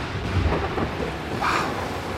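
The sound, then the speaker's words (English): Thunder rumbles low beneath a steady, even hiss of falling rain as a storm begins, a continuous wash of noise with no voices. “Uh-oh. Oh, God. Here comes the rain.”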